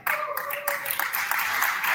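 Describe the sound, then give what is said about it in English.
An audience at a European security competition applauds Austria's team, with bright, dense clapping that stays fairly even and ends abruptly. “Applause for Austria!”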